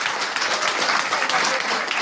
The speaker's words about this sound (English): Don't talk over my applause breaks.